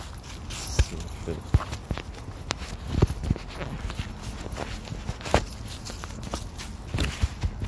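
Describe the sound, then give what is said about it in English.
Footsteps of someone walking a long outdoor loop, a steady stream of many irregular soft steps and scuffs that keeps going without a break. “Walking around with Zobie.”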